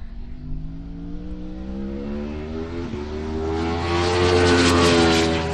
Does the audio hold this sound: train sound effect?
no